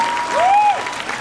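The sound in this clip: Applause from an audience, steady clapping throughout, with a brief whistle that rises and holds over it.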